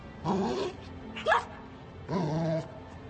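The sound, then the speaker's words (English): A dog whimpers in three separate whines, each a thin, tonal cry at moderate volume. The short middle one bends sharply in pitch, and the last holds steady. “But it can't be. He's a dog.”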